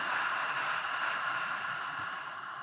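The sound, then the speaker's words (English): A deep exhale through an open mouth makes a soft, breathy rush of air. It is heard alone and holds steady, then fades slightly over about three seconds. “deep breath in. Hold. Open mouth, exhale.”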